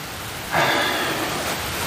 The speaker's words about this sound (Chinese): 你看看下雨，马上下雨。 是啊，下了半个月了，刚停了一会儿又下了。